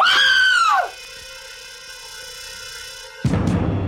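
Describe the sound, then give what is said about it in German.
A woman screams at the sight of a corpse. It is a loud, high shriek that falls in pitch and breaks off within a second, followed by a steady droning tone and then an abrupt burst of noise at the end. “Was danach kam, war der übliche Schrei einer Frau beim Anblick einer Leiche.”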